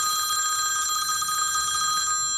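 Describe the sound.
Telephone ringing with a continuous high electronic trill, steady and unbroken for the whole clip with no voices.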